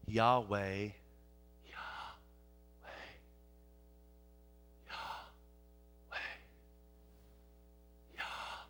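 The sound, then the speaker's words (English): A voice imitates breathing while pronouncing the Hebrew divine name. One voiced, breathy syllable is followed by five soft, spaced exhalations, all faint over a steady low hum. “What's that sound like? Breathing. You're just breathing.”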